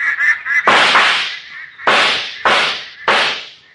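Gunshots fired at ducks on a lake: four loud, sharp blasts at uneven intervals, each trailing off in a decaying rumble, after a few brief quack-like calls at the start.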